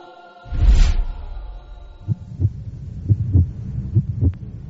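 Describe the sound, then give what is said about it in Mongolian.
A human heartbeat sounds as steady, soft, low thumps, mostly in paired lub-dub beats, after a brief muffled whoosh at the start. “Таны зүрх өдөрт 100 мянган удаа цохилдаг.”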